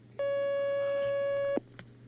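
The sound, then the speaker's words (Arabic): Telephone line tone as a caller is connected: one steady, unbroken beep lasting about a second and a half over a low hum, then quiet. “نأخذ مكالمة.”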